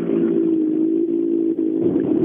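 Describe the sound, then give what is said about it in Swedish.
Engine of a Skoda rally car rolling up to the start line, a steady mid-pitched drone that holds a constant tone throughout with slight dips. “Kjelle Sandberg rullar fram till start, Skodan.”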